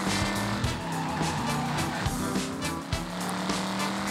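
Race cars in a video game roar and skid, tires squealing over a continuous engine drone, with a few sharp knocks and bumps scattered through the steady noise.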